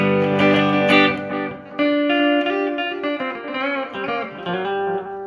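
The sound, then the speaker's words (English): Electric guitar played through an MXR Carbon Copy delay pedal, a few loud ringing notes and chords with rich harmonics whose echoing tails overlap and fade, heard alone without talk. “Digital delay. Weird. Carbon copy delay. MXR carbon copy.”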